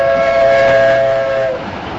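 A passenger train travelling from Petersburg toward Polotsk, heard as a steady, loud rolling rumble with a sustained whistle-like tone held over it that fades out toward the end.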